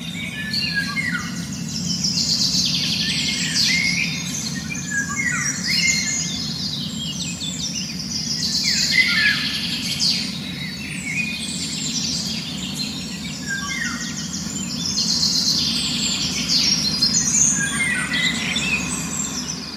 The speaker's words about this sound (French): vous allez très vite voir que c'est un chant d'oiseau. Ça se passe quelque part dans la nature. Il y a plusieurs oiseaux.